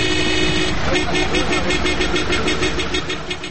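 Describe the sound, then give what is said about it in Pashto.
Loud car horns honking in traffic, overlapping sustained tones over a constant rumble of engines, dense and steady throughout. “د موټرو لوړ هارنونه په ټولو خلکو په تیره بیا په ناروغه کسانو ډېرې بدې اغېزې کوي.”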